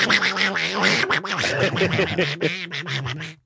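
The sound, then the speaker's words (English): A man imitates a duck's quack in a raspy, nasal, squawking voice. A steady stream of quacky syllables runs for about three seconds and then cuts off. “he set that joke up just to pull off his Donald Duck impersonation”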